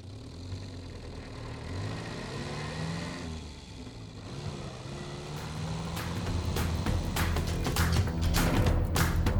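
A car drives along with a steady engine rumble that grows a little louder toward the end.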